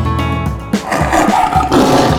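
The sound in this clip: A tiger roars in short, loud, rough growling bursts with a deep, throaty rasp.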